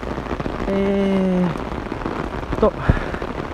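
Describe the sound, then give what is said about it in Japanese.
Rain falling on a strange-weather day, a steady soft hiss of patter throughout, with a short vocal sound partway and a faint knock near the end. “いやー今日は変な天気です、雨ですわ。”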